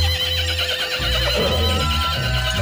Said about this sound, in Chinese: 四马仰天一阵嘶鸣，停了下来。